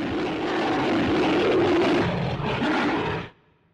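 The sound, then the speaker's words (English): A classic 1933 movie monster roar, built from mixed lion and tiger growls and reportedly played back in reverse: one long, loud, rough roar holding steady for over three seconds before cutting off abruptly. “That was the roar of King Kong from back in 1933. King Kong's voice was famously made by mixing the growls of lions and tigers.”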